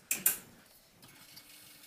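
A grinder, fresh out of the box, being switched on: two sharp clicks, followed by a faint, low mechanical hum with light ticking.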